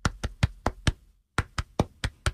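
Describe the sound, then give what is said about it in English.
Hands strike a stomach like a drum in body percussion: eleven dull, thumping hits in an even rhythm, a run of five, a short pause, then six more, moderately loud and alone. “Did you know that your body could be a drum? You can hit on your stomach,”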